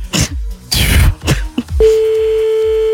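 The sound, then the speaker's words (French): A telephone call is placed: a few brief noises, then a steady, unbroken dial tone holds to the end. “Bon, j'en appelle encore un autre là.”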